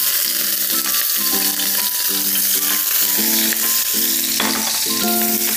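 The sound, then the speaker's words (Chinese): Chopped scallions and garlic sizzle in hot oil in a wok, a steady bright hiss that runs throughout with music playing over it. “火热锅，锅热了以后倒入适量的油，准备好葱花蒜末，倒入锅中爆香，”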